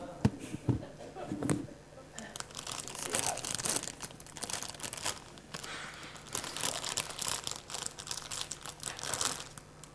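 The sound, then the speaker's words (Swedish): Plastic candy bag of Ahlgrens bilar being opened, with loud crinkling and crunching in repeated bursts that rise and fall for about ten seconds. “Ahlgrens bilar. Är det någon som gillar Ahlgrens bilar här? Upp med en hand. Ja, jag ska öppna den bara så.”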